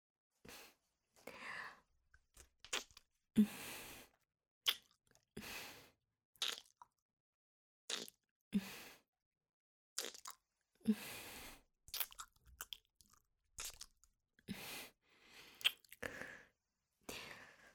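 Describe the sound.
Wet kissing and licking mouth sounds come in many irregular smacking bursts with brief quiet gaps, some louder and crisper than others, with no talking.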